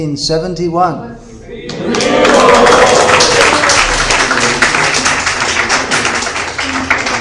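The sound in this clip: Loud, sustained crowd applause at an ISKCON Hyderabad gathering honouring a long-serving devotee, rising into a dense wash of claps after a brief stretch of a man speaking.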